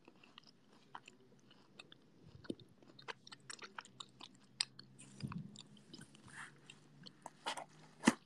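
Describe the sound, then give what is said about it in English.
Chewing and mouth sounds from someone eating food: many crisp, irregular crunches and wet smacks in close succession, moderately loud, with no talking. “I apologize if you hate mouth sounds.”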